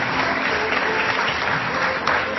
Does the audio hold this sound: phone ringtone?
no